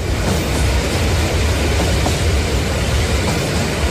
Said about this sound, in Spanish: el último tren está a punto de partir. Ocupen sus asientos.